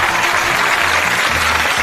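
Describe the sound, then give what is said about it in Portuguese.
Applause for a 39th birthday: dense, steady clapping that runs unbroken through the whole moment at an even, fairly loud level. “39 anos a Teca aqui, uma salva de palmas pra ela merece, viu, aqui no aniversário dela.”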